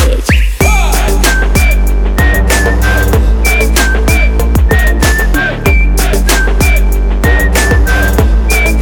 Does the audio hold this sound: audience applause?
no